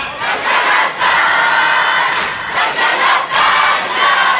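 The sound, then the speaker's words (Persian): A large crowd of mourners chants responses in unison and beats their chests, the loud massed voices surging in regular bursts about once a second. “اگه بدونید چقدر قشنگ سینه میزنن، چقدر قشنگ جواب میدن.”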